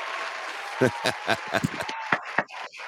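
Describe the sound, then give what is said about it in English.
Applause on a live show, a steady hiss of clapping running under a voice that keeps talking over it, punctuated by sharper bursts. “Big applause.”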